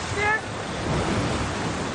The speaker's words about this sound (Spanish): Con la subida de la marea, las olas golpean con fuerza a los crucificados.